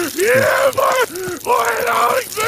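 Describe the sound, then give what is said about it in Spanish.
A video game creature's scream, voiced by a dubbing actor: loud, harsh, wavering screeches in a few bursts, the last one longest, with groaning, guttural undertones. “Esto, horrible, es el grito del bicho.”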